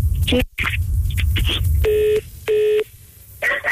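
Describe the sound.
A telephone tone sounds after the other party hangs up on a call. Two steady, equal-length beeps stand out, with shorter tone bursts around them and another beginning at the close.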